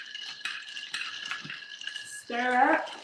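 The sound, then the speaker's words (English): A drink with ice is stirred without a spoon before grated cinnamon goes on top: light clinking and rattling for about two seconds, followed by a brief voice. “You're going to stir before you put the grated cinnamon on top.”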